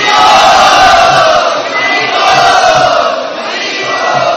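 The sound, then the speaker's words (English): A temple audience at Shri Shri Radha Gopinath Mandir loudly chants a welcome in unison three times, each a sustained, roaring group shout. “And we would really very, very enthusiastically welcome him to Shri Shri Radha Gopinath Mandir by loudly chanting three times.”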